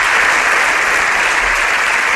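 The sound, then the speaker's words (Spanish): Parliamentary benches stand and applaud their party leader, producing dense, loud clapping from a large group that stays steady and unbroken from start to finish. “La bancada del PP dempeus en aquests moments aplaudint el seu líder i s'aixeca Feijóo”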